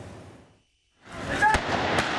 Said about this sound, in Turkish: Güvenlik güçlerine taş ve havai fişek fırlattılar.